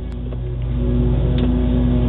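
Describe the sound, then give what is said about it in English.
A lawn mower runs right next to a car, making a loud, steady engine drone with a low rumbling hum. It swells slightly at first and then holds constant with no talk. “Holy crap, the mower's right next to the car. Can you believe this?”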